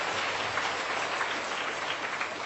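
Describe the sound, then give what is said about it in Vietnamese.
Students in a classroom applaud their teacher in a faint, dense, even patter of clapping that runs steadily throughout. “Cô rất hạnh phúc khi nhắc đến cha mẹ mà các em lại vỗ tay.”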